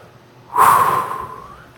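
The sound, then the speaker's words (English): A single deep breath, airy and fairly loud with a faint whistling tone, swelling quickly and then tapering off over about a second, with no talking. “Take a deep breath.”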